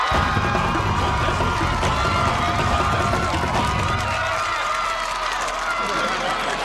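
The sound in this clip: A studio audience cheers and shouts a welcome for returning game-show champions, a loud, continuous roar of crowd noise whose low end thins out partway through.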